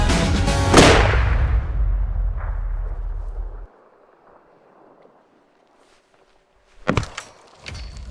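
A loud rifle shot fired at a target booms and rolls away in a long rumbling decay. After a near-silent pause, two shorter, sharper impacts follow.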